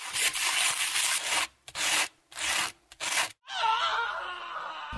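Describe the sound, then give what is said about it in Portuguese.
Sandpaper rubbing in a run of harsh, scratchy strokes. The first long rasp is followed by several shorter back-and-forth scrapes separated by brief gaps, then a final sustained scrape. “Vamos de papel lixa.”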